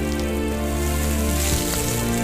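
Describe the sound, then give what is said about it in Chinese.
Sea snail meat stir-frying in a wok over high heat gives a steady, dense sizzle that crackles continuously without pause. “螺肉滑入锅中，猛火快攻下，其腥味彻底被驯服，鲜甜被唤醒，一切水到渠成。”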